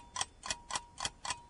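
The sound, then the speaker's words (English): A quiz timer ticks five times at a quick, even pace. Each tick is a crisp, clear click with no talk around it. “Here's your timer.”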